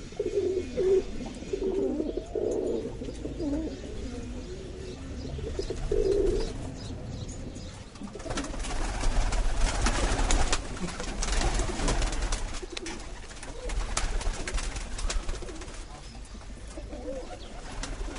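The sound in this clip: Pigeons coo in a loft of racing pigeons, with low, soft repeated coos in the first half. A louder, noisier rustling stretch follows, and the coos fade under it.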